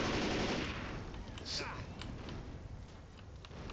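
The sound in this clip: Gunfire from the video game Left 4 Dead 2, with dense, rapid shots crackling over a steady noisy background at moderate loudness.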